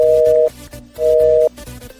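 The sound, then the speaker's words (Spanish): A telephone line tone sounds after a call is hung up: two steady, identical beeps of a single mid pitch, separated by an equal gap of quiet line hum, with no voices. “Compañero, creo que nos han cortado la llamada. Al parecer nos ha colgado la señorita.”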